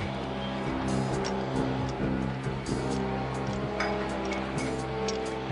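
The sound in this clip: A car engine roars as the car's turbo boost kicks in, giving a loud, steady drone with strong low harmonics and brief higher whooshes throughout, with no talk.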